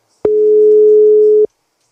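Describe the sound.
A telephone busy signal on an unanswered call: one steady, mid-pitched electronic tone that holds at an even level for just over a second, then cuts off into silence.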